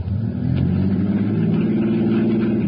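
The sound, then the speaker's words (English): A car engine runs with a low, steady, rumbling drone while the car is stuck in mud, holding an even loudness throughout. “Start your motor.”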